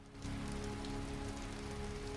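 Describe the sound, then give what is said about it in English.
Heavy pouring rain seen from a window, a dense, steady hiss of drops beating down without pause, loud and even throughout. “A young woman stands by a window and looks out at pouring rain.”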